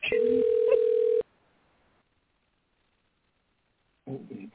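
A single sustained ringback tone on a phone line during a call to a daughter that goes unanswered. The steady mid-pitched, band-limited tone lasts about a second, then cuts off into silence.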